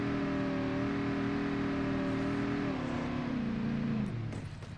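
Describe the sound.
A car engine drones steadily as a car drives up a mountain in a video game. The note is continuous and mid-pitched, drops in steps during the second half, then fades at the very end.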